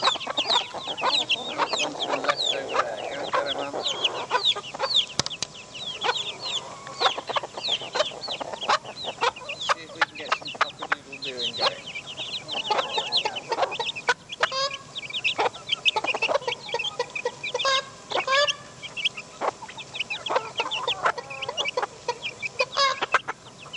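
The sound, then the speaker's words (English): Clucking and loud peeping from a flock of fluffy white silkie chickens and little brown chicks, a dense, continuous stream of many overlapping high chirps and clucks with no talk. “the white fluffy chickens, and a bunch of little brown ones. Here comes another silky, and a few more chicks who are quite loud.”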